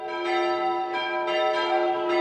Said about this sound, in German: Pünktlich um 11 Uhr war es Zeit, die Glocken zu läuten.